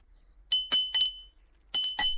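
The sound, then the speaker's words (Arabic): A doorbell rings with bright, metallic chiming tones in two short bursts, three quick rings followed by two more after a pause, alone with no talk. “ايه الجرس ده؟ ده جرس الدلال.”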